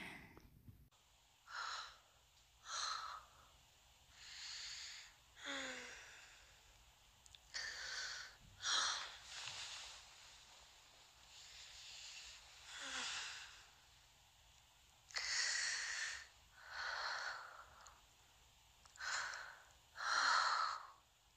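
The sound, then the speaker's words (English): Heavy breathing during an intimate moment: many uneven, audible breaths, some drawn in sharply like gasps and others let out as sighs. The breaths come in irregular bursts separated by brief quiet gaps, at a soft overall level. “Yeah, I'm starting to breathe a little heavy because you're turning me on.”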